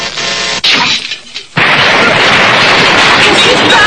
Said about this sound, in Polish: Nagle pojazd bez żadnej przyczyny wybuchł. Zostały tylko szczątki.